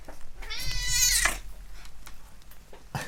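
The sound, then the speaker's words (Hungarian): A cat meows while sitting on a desk. One drawn-out, high, tonal meow rises clearly over low background noise, followed by quiet rustling. “Közben megszabadulok a cicától, aki folyamatosan itt van az asztalon, és a vizemre pályázik természetesen.”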